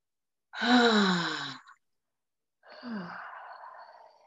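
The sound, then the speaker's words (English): Two slow, deep breaths taken in through the nose and let out through the mouth, each an audible, sighing, voiced breath that falls slightly in pitch. The first is longer and louder, and a short silence separates the two. “Slow your breath down, inhaling through the nose and exhaling out of the mouth.”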